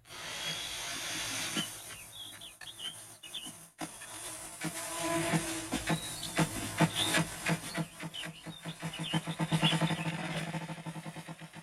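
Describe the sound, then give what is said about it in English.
A male ruffed grouse drums while standing on a log, beating the air with its wings. Soft, low thumps start slowly, then speed up into a rapid roll over a faint hiss. “So that is a displaying ruffed grouse. And this ruffed grouse is standing on the top of a log, and he's beating the air with his wings.”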